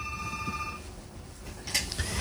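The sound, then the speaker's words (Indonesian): Telephone ringing as a caller joins the phone line: a steady electronic ring tone sounds for under a second at the start, fairly faint, then gives way to low background noise. “Oke, ada yang sudah gabung di line telepon.”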